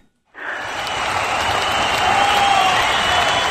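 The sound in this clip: Sustained audience applause for a fundraising member: a dense, steady wash of clapping that starts abruptly and stays loud and even to the end.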